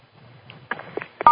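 Telephone keypad tones sound while a moderator mutes a conference call: a few short beeps spaced apart over faint background hiss, ending in a louder, sustained tone.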